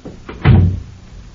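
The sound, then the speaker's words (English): A guard opens a heavy outer door: a couple of faint clicks, then one loud, low thud with a short boomy resonance. “I'm leaving now, Guard. If you'll open the outer door.”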